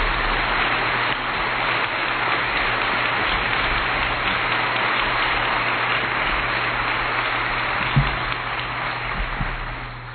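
Applause welcomes a former state senator to the stage to close an event: dense, steady clapping fills the whole stretch at an even loudness, with a brief louder burst near the end.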